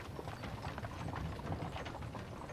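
Hooves of a horse pulling a carriage clip-clop in a steady, rapid rhythm, faint and continuous, with light rattling from the carriage mixed in.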